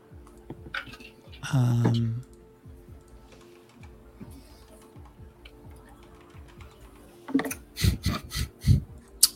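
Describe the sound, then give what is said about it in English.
Keyboard typing, with many light, irregular clicks running throughout and a cluster of sharper, louder taps near the end. “It's never good when they start out by typing.”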